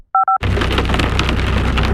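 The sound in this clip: A hailstorm, a dense, loud, continuous patter and rattle of hailstones striking hard surfaces, opened by a short series of electronic beeps.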